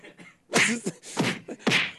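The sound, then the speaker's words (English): Punches land in a recorded fight, a beating caught on body-worn and dashboard cameras. A faint first hit is followed by a few louder, sharp, broad thwacks at irregular intervals. “I've got some sound of the actual fight.”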